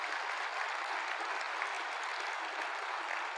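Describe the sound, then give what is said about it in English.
Audience applause for military members and veterans at an Anchorage economic forecast event, a soft, steady wash of many hands clapping without pause. “Thank you for that round of applause for them.”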